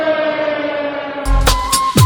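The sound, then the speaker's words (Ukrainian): An air raid siren sounds in the city of Kamianske, a steady wailing tone with strong harmonics, followed by a few louder, noisy bursts in the second half. “В місті лунає повітряна тривога.”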